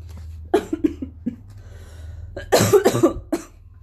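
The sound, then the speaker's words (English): Someone coughs to clear phlegm during a mucus cold, with a few rough, chesty bursts in two clusters. The second cluster is louder and harsher, and soft breathing sounds fall between the clusters. “I'm having a hard time getting rid of this last little phlegm bit. That's a mucus cold for you.”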